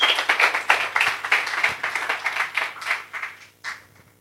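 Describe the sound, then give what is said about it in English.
An audience gives a big hand to welcome a speaker at a talk, a burst of lively clapping with distinct individual claps that gradually thins out and trails off into a few scattered claps near the end. “Please give him a big hand.”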